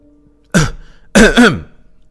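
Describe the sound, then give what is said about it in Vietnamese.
A man's dry cough and throat clearing: one short, gruff burst, a pause, then a longer two-part rasping clear of the throat. The sounds are loud and stand alone, with no talk. “Diệp Đông Bình ho khan một tiếng, ổn định lại tâm trạng”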